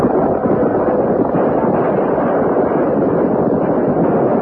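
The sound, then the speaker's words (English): Rifle gunfire from cavalry troopers charging into battle against a mounted band forms a dense, steady barrage, a loud continuous crackling roar with no pauses or clearly separate shots. “The troopers opened fire as they charged into the battle.”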